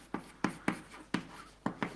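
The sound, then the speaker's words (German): Handwriting during a mathematics lecture: six sharp scratchy pen or chalk strokes, each with a quick decaying scrape, in an uneven rhythm at a faint level. “Also ich schreibe nur hin”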